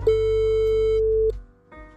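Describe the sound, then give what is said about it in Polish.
Outgoing telephone call tone: a single steady, mid-pitched ring-back tone lasting just over a second over a low hum, then a short pause and a faint buzzing line sound. “Zadzwonię do pana Bogdana.”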